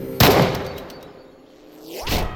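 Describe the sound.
A target gun fires one loud, booming shot with a long decaying rumble, followed near the end by a rising whooshing sweep.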